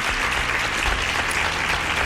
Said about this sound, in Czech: Ano, potlesk pro vás.